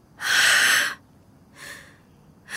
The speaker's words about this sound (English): You want to take a deep breath with me?